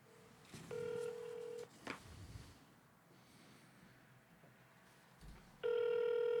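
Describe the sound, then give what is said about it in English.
Telephone tones from an electronic board game's phone dialing a number: two sustained buzzy tones about a second long, separated by a quiet gap holding a sharp click and faint breathy noise. “You have dialed a number that is not available from your calling area.”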